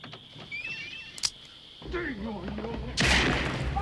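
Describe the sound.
Gunshots ring out amid people talking: a sharp crack early on, then a louder, broader burst of gunfire near the end.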